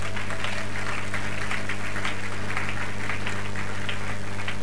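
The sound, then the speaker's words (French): A French-speaking church audience applauds after a Bible reading, a loud, continuous wash of many hands clapping over a low steady hum. “Est-ce qu'on peut acclamer cette parole de Dieu?”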